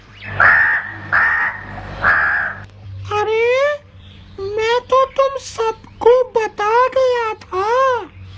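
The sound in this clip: A crow gives three harsh, evenly spaced caws, followed by a voice speaking in lively, rising and falling phrases.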